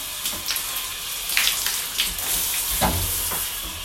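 Shower water runs in a steady broad hiss, with a few faint splashes rising briefly above the constant spray.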